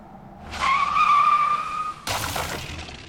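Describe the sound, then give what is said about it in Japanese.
Tires squeal as a speeding car skids toward a sharp curve, a loud drawn-out screech lasting over a second, followed by a sudden harsh crash as the car smashes through a guardrail. “ああ、ガードレール突っ切っちゃったわね。あの高さの崖から落ちたら、助からないわね。”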